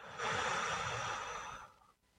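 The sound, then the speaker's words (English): A deep breath blown out during a guided breathing exercise: one long, airy, rushing exhale that holds steady, then fades out after about a second and a half. “Take a breath. All the way around the world and blow it out.”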